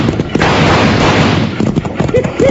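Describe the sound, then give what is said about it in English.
Gunfire in a stagecoach shootout: a loud, dense burst of rapid shots filling the first second and a half, followed by voices. “Hey, now that was too darn close. This time we can shoot back, Jingles.”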